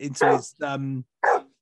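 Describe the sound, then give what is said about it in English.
A dog barks in a few loud, harmonically rich bursts separated by short pauses, an unusual bark for this dog, with no other sounds between them. “I've never heard him bark the way he barks like that.”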